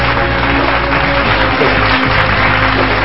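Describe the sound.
A studio audience on a Hindi talk show applauds as a Brahma Kumari guest is welcomed. The clapping is loud, dense and steady throughout.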